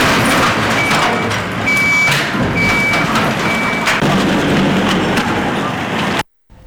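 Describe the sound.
Reversing beeps come from work machines and trucks loading tons of garbage during a cleanup: four evenly spaced, high, steady beeps ring over continuous loud engine rumble and traffic noise, which cuts off abruptly at the end.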